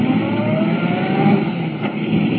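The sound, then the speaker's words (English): A car engine accelerating hard as it pulls out of a driveway onto a concrete road in a radio drama, a loud continuous drone whose tone climbs steadily throughout. “Swinging out of the sanatorium driveway, Clark Kent hits the smooth concrete of the main road, traveling at 70 miles an hour.”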